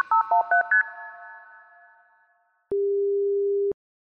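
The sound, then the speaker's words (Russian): Telephone tones sound while someone tries to reconnect a dropped call: a quick run of four short electronic beeps with a fading tonal ring, a brief silence, then a single long, steady, mid-pitched beep. “Пока связь восстанавливается, сейчас я попытаюсь восстановить связь. Вот вызов даю, но что-то не получается.”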